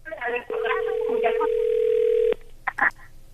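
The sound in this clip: A telephone dial tone sounds while someone places a call: a steady, pure electronic hum that holds for about two seconds, with voices talking before and over it and more talk after it cuts off.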